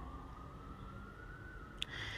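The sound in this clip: A faint city siren comes through an open window as a thin, steady wailing tone that creeps slightly upward, with a brief sharp click near the end.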